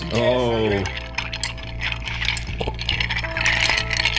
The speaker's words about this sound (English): So we're giving that a nice little stir.